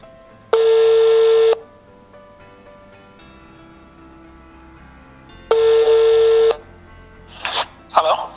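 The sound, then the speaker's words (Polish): Telephone call tones from a phone line: two long, steady, mid-pitched beeps about a second each, spaced roughly five seconds apart, followed by a brief burst of other sound at the end. “I dzwonimy do Łukasza.”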